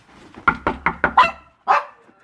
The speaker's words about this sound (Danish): Hvad så, hund? Hej så, lille bitte hund. Hvor er du sød?